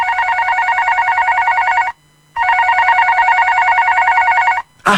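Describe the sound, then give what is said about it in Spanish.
A telephone rings in two long, steady bursts of bright, trilling tone separated by a short silent gap, followed by a brief burst of noise at the very end. “Te están llamando.”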